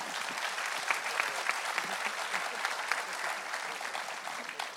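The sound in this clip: Audience applause welcoming a panel of guests at a morning event, a dense, steady patter of many hands clapping with a few sharper claps standing out.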